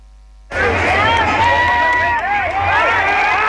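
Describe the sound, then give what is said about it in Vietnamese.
Crowd noise from football fans celebrating Vietnam's second straight ASEAN Cup title in the streets of Hanoi near My Dinh stadium. After a brief quiet moment, a loud, continuous roar breaks in with wavering high tonal calls on top. “đêm qua hàng vạn cổ động viên tại nhiều tỉnh, thành phố đã đổ ra đường ăn mừng chức vô địch ASEAN Cup lần thứ 2 liên tiếp.”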